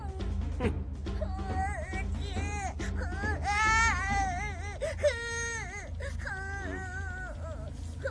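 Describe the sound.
A child cries after being hurt by snowballs, with sustained sobbing wails whose pitch wavers and quivers, rising into louder cries partway through.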